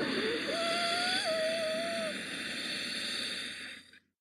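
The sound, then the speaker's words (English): A long, steady inhale through the nose with the back of the throat contracted: a breathy, ocean-like hiss that carries a faint thin whine, then fades away at the end. “Inhale through the nose while gently contracting the back of your throat.”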